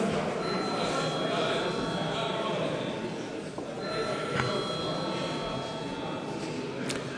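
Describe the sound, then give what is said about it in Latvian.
Bell rung in a parliament chamber: a continuous, rattling electric ringing holds steady and fairly loud for the whole stretch without a break. “Lūdzu zvanu.”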